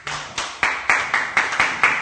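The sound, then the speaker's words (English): A group clapping hands after a short presentation, with sharp claps in a fairly even, steady rhythm that keep a constant loudness throughout. “Give them a clap.”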